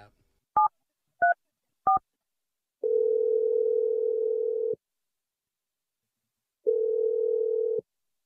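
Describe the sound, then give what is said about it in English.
A telephone dials a number with three short, separate keypad beeps. Two long, steady, low tones follow, separated by several seconds of silence. “I'm going to dial his number right now. Here we go.”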